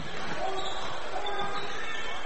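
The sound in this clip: Basketball being dribbled during a women's game in the fourth quarter, the ball's repeated bounces half buried in a steady wash of crowd noise and voices.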